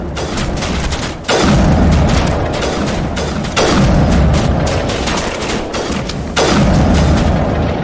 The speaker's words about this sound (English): Gotta slow down our sniper fire here. Actually, let's have our other party members also get out sniper rifles.